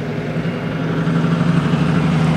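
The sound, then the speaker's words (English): Heavy trucks pass near a U.S. Steel plant in River Rouge, Michigan, under hazy skies, making a dense, continuous low engine drone over steady road noise with no clear break. “A hazy sky covers heavy trucks passing near the U.S. steel plant in River Rouge.”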